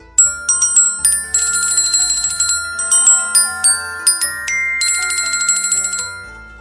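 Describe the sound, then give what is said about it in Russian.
Small bells chime pleasantly in a bright, tinkling run of many struck notes that ring on and overlap at a steady, even pulse, alone and fairly loud. “Абер хлопнул в ладоши. Раздался приятный перезвон невидимых колокольчиков.”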